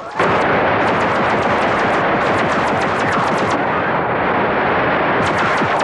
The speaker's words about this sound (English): Someone firing from behind.